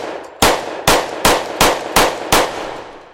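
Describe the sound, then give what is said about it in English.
Six sharp, loud gunshots from a Glock 22 .40 caliber semi-automatic handgun crack in quick, evenly spaced succession. Each blast is a hard percussive burst with a brief ringing decay. “That's the sound of a Glock Model 22, a 40 caliber semi-automatic.”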